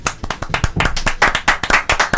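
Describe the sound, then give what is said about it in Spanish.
Hand clapping in applause for director Bryan Singer: many sharp, quick claps in a steady, even rhythm, loud and close, with no talking over them. “Bryan Singer, aplausos.”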